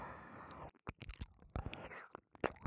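Biting sounds made by the mouth, a few sharp, crisp clicks and crunchy bursts with short pauses between them, set against soft breathy whispering.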